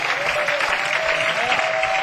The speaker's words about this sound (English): Let's have an applause for all the performers